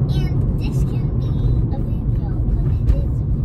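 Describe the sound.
Steady low rumble of a car being driven, a continuous engine and road drone with small knocks and faint voices above it.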